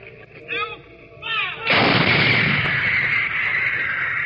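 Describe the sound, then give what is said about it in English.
Howitzer artillery fires rounds at a Korean War gun position, with a sudden heavy blast that rolls into a long, sustained roaring rumble, preceded by a few quieter, fainter sounds. “You are listening to A Gun Position as this howitzer pounds round after round into the advancing human”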